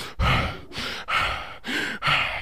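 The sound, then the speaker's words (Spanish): Heavy, out-of-breath breathing is demonstrated by a man describing how a 300-pound person gets winded. Several loud, rasping breaths follow one another in a steady, labored rhythm, with no talk over them. “Y tú estás sofocado, ¿eh? Porque uno respira así.”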